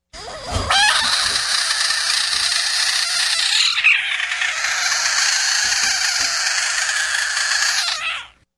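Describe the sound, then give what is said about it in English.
A burrowing owl from Florida gives one long, harsh, raspy call that lasts about eight seconds without pause. Its tone shifts briefly near the middle, and no one speaks over it. “Burrowing owl.”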